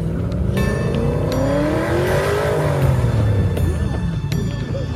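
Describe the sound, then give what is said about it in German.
A dark car races through a crowd of zombies and comes to a stop. The loud, continuous engine roar climbs in pitch, then drops away toward the end. “Ein dunkles Fahrzeug rast durch die Zombies und kommt vor ihnen zum Stehen.”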